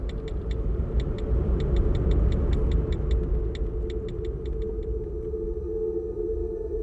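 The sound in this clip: A car drives around with a steady low engine rumble throughout, while a rapid series of light ticks clicks for the first few seconds and then stops.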